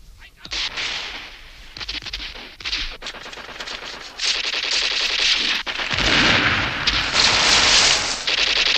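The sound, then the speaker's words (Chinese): Gunfire exchanged in the dark between partisans and German soldiers: dense, rapid machine-gun bursts and shots, loud and nearly continuous, growing heavier and more sustained in the second half. “黑暗中，双方互相射击。”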